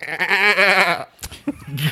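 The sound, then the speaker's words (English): A voice imitates a demon goat's bleat: one long, wavering, quavering cry of about a second with a shaky vibrato, followed by brief, softer breathy noises. “Except it would be accompanied by the sound of a demon goat every time you'd see it and it'd be all scary.”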